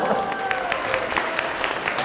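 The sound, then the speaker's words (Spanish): Audience applause welcomes a museum curator as a guest at a live science talk on football technology: steady, dense clapping from many hands, with faint voices beneath. “Denle un aplauso. Aplauso para Normita.”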